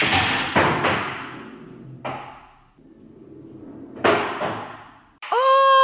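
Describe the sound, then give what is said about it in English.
Pool balls clack together on a pool table in several sharp, hard knocks, each with a short ringing tail. The hits come in uneven clusters with quiet pauses between them. “Playing pool on a pool table.”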